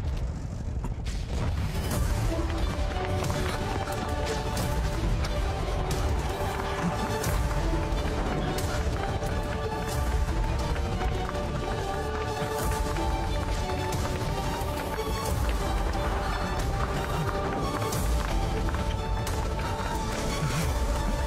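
Soldiers run at a war front near a minefield, a continuous loud, dense clatter of many hurried footsteps with sharp impacts scattered throughout.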